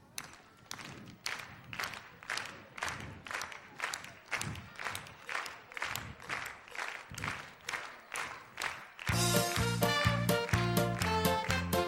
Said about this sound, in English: Let's all start clapping like this.